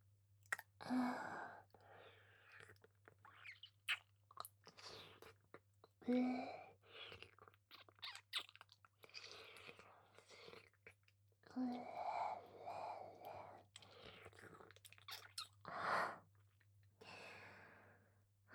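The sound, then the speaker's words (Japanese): Wet licking and mouth sounds on the neck in an ASMR role play, soft moist smacks and clicks coming in intermittent clusters, with breathy sighs between them, quiet and close. “今から全身舐めのサービスを始めさせていただきます。まずは首筋から。”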